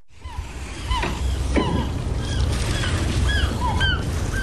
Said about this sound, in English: Here at South Harbor, fishermen are walking the docks and putting away gear on a clear afternoon.